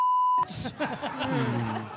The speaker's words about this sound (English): Beep the name out.